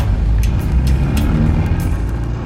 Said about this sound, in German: Der Narko gibt Gas, überholt uns und entschwindet in die Nacht.